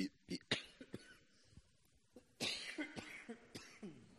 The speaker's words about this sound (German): Entschuldigt, aber ich glaube, ich kriege das heute nur mit Husten hin.